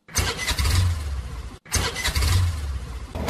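A vehicle engine starts and runs with a loud, steady rumble in two bursts, broken by a brief cut of silence partway through.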